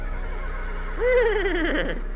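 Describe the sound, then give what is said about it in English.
A loud horse whinny from a huge golden horse in a fantasy game starts about halfway through as one wavering, harmonic cry that dips and trails off, over a steady low hum. “as you all turn to leave, you hear like a loud whinny.”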